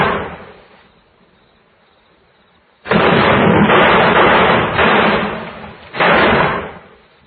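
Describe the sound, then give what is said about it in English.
Gunshots ring out in a radio drama scene: a few heavy, booming blasts with long ringing tails, separated by a near-silent gap, then one more sharp report near the end. “What were you shooting at him for? I wasn't shooting at him. He was shooting at me. Why were you shooting at him? Well, everybody else was.”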